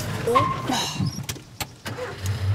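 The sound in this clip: A car engine during a driving lesson as the clutch is released and gas applied: a low rumble with a few sharp clicks and voices over the start.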